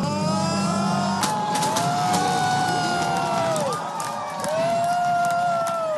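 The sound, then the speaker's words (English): Supporters of Volodymyr Zelensky cheer as Ukrainian presidential runoff exit poll results come in. A crowd roar with shouting voices stays loud and steady, dips briefly near the middle, then swells back. “Supporters cheered as they watched the Ukrainian exit polls come in after an apparent landslide victory of Volodymyr Zelensky.”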